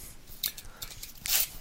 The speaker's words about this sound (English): Do you hear that? That's the sound of Comic Book Land knife cutting open.